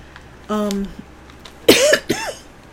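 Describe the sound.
A person coughs just before taking a cough drop. A short hummed vocal sound comes first, then a harsh cough burst followed by brief voiced throat noises, all separated by quiet gaps.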